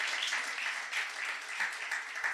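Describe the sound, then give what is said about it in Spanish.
A church audience applauds to praise the Lord during a service, producing a soft, continuous wash of clapping that holds steady from start to finish. “Y si lo creen, den un aplauso al Señor.”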